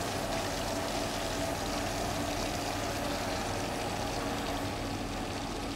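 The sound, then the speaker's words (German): Steady rushing whoosh of a pump pushing curds and whey through a hose into a cheese mould, continuous liquid flow over a low hum. “in die Käseform füllen. Schlauch in Position. Dann kann ich jetzt die Pumpe starten. Jetzt kommt Molkebruch.”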